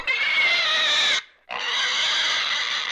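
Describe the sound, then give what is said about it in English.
A pig screams in fear while struggling, stuck and sinking in a thick black substance: loud, high, harsh squealing held in two long bursts split by a brief pause. “The pig attempts to free itself again and again. It now screams in fear”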